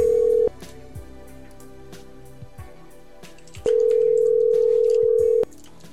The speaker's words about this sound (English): Now it says call rejected. I'm going to try the alternative dialing mechanism.